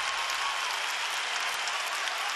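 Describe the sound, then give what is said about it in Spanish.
Audience applause for a singer: steady, dense clapping that stays even and continuous throughout, with no single voice standing out. “Mira cómo lo aplauden.”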